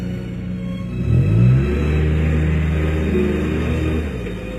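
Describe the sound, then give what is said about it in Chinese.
A car pulls away angrily, its engine revving up in a rising whine early on, then settling into a steady low rumble that eases off slightly near the end; no voices. “刘媛的话伤了李青的心，李青愤怒地开车走。”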